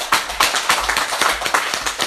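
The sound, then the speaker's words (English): Audience hand clapping in a steady rhythm, with many claps landing together about every third of a second, loud and even throughout. “We give a hand clap to our English brothers and sisters.”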